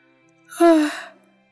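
A man yawns once early in the morning, a single drawn-out breathy exhale with a brief voiced tone at its peak that fades out within about a second.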